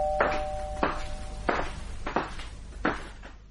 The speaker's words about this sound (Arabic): جرس الباب. اكيد هو.